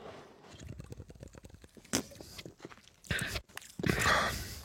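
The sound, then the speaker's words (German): Mate tea being sipped and sucked into the mouth: many small wet clicks and smacks, then a few louder hissing slurps toward the end, with no talking. “Hm, ich trinke nochmal einen Schluck Mate.”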